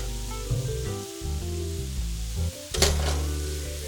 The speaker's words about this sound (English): Cook the hamburger steaks for 3 minutes.